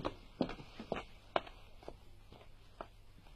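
Footsteps of someone walking away, a steady series of soft, evenly spaced steps that grow gradually fainter over a quiet background.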